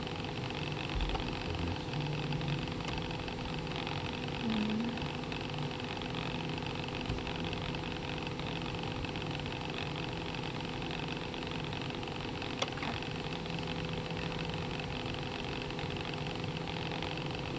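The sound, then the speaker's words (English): A pump running with a steady, low mechanical hum and a constant tonal drone, even and unchanging throughout, broken only by one brief click near the end. “Okay, right, I'm going to start pumping.”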